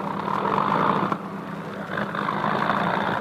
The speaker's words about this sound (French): Les deux moteurs intérieurs viennent de se mettre en marche, puis les deux moteurs extérieurs.